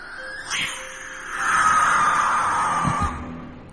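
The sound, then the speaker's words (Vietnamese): A barn owl gives a long, harsh, drawn-out screech that holds for over a second at fairly high pitch, preceded by a shorter cry. “Con cú lợn không biết đậu ở đây được bao lâu. Sau đó, nó nhìn nghiêng nghiêng cái đầu, rồi đập cánh phành phạch, kêu lên vang vọng.”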